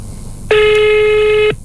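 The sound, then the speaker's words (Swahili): A single steady electronic telephone tone, about one second long, as a phone call is placed after dialing *216#; buzzy and fairly loud with rich harmonics, starting and stopping abruptly, with no talk. “Napiga simu mbili kwa wakati mmoja. Bismillah.”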